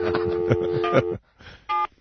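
Touch-tone telephone dialing: a run of tonal beeps, then a short pause and one more brief, steady tone.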